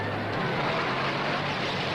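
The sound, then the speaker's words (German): T-34 tank setting off and rolling toward a crowd of protesters in East Berlin: a continuous, broad engine roar with heavy rumbling, steady and unbroken in loudness from start to finish. “Und nun setzt sich der erste der großen T-34-Panzer in Bewegung und fährt drohend auf die Massen zu.”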